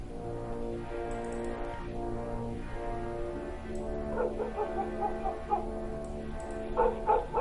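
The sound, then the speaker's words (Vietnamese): Dogs bark from a house at the far end in a few short bursts toward the end, over a steady droning background with slow, sweeping tones that rise and fall. “Có mấy con chó ở nhà đầu bên kia vẫn cứ sủa, sủa sang ghê lắm.”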